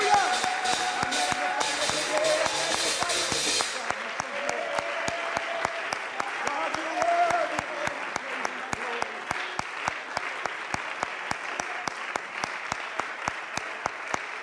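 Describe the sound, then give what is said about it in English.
Congregation clapping hands in praise at a Pentecostal church service in Buford, Georgia: a burst of broad applause gives way to steady, rhythmic clapping in time, with voices underneath. “Can we now just give the Lord a good hand clap of praise?”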